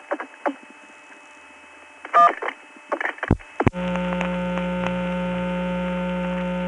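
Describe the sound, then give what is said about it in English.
A telephone company loop-around test tone on a phone line: a few clicks and short bursts, then a steady, loud buzzing tone with a constant hum that starts partway through and holds unchanged to the end. “the number I had her call was a telephone company loop-around”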